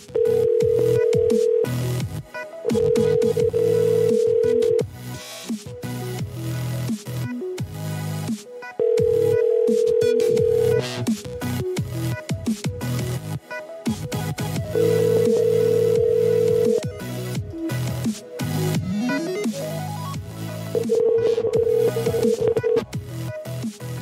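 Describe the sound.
Telephone ringing tone as a call is placed to a number: a steady buzzing tone repeats five times with pauses between, over a dense, busy background.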